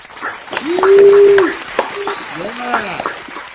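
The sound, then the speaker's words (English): Applause from a studio audience greets a guest's entrance on a talk show, with bright, sustained whoops riding over the clapping and swelling loudest early on. “Please give it up for Mark Wahlberg.”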